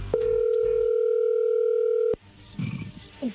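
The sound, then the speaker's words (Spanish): A telephone dial tone: a single steady, unbroken tone holds for about two seconds and then cuts off abruptly, leaving faint, muffled low sounds. “se está marcando, no haga ruido. Vamos a ver qué sucede.”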